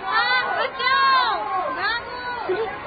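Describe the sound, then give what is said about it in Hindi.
A noisy crowd in a riot surges with many overlapping shouting voices, their pitches sweeping up and down in a loud, continuous clamour. “सुनिए सुनिए, शोर भी तो इधर ही आ रहा है और लोग भागते हुए भी आ रहे हैं।”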